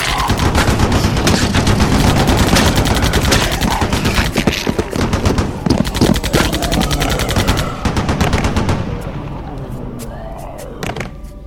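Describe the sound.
Heavy gunfire, with machine guns blasting at zombies' heads: a loud, dense fusillade of rapid shots that stays intense for several seconds, then thins into scattered bursts and single cracks toward the end.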